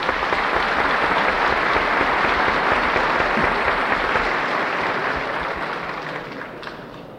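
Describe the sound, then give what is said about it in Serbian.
An audience at a formal assembly gives full, sustained applause as a speaker is welcomed to the podium. The clapping is dense and even, then gradually tapers off near the end. “Ovaj aplauz od malopre, ja se nadam da je bio znak da sam ja”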